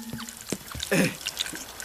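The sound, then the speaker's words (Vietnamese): A brief gush of water spraying from a leaking pipe in a kitchen, a short splashing burst near the middle set among scattered small clicks and drips. “Nấu ăn trong bếp, sắp đồ ăn vào đĩa thì ống nước phun ra với tiếng nước phun. Ôi không, lại thủng lỗ nữa rồi.”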